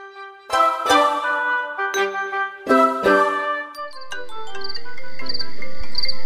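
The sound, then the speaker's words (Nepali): A WhatsApp incoming-call ringtone plays loud and alone: bright, bell-like melodic notes struck in quick clusters, followed by softer tinkling chimes over a rising wash of background noise. “ओहो, वाट्सएपमा त मुस्कानले पो phone गरिन् त, उठाउनु पर्यो।”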